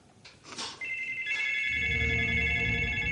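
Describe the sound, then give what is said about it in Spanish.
A telephone rings on a table in a tense thriller film scene: a steady electronic bell tone starts after a brief faint rustle and keeps ringing to the end, over a low sustained drone. “Al momento suena de nuevo el teléfono junto al que está la foto de Mary.”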